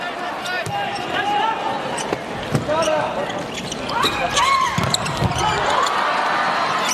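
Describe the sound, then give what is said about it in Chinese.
Ball bounces and hits during a serve and rally, a series of sharp, bright knocks under a steady commentator's voice. “王彬一个不错的发球，”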